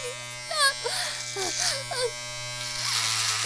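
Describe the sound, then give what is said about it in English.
Electric clippers shaving someone's head give a steady buzzing drone throughout, partly masked by loud, distressed shouting voices. “Why are they cutting my fucking hair off? Why the fuck are they shaving my fucking head?”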